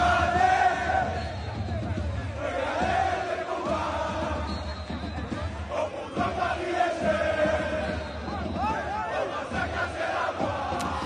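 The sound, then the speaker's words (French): Paris Saint-Germain players and their fans celebrate together in loud, sustained crowd chanting and shouting, with many voices rising and falling in waves throughout. “je vous propose d'écouter une petite ambiance et une ambiance entre les joueurs du Paris Saint-Germain et leur public qui commémoraient ensemble. Vous les avez vus, Cédric, mais là, on va les entendre et c'est pour nos auditeurs.”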